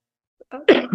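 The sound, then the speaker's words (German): A single sneeze: a faint intake, then one sharp, breathy burst that quickly trails off, alone. “Entschuldigung. Gesundheit.”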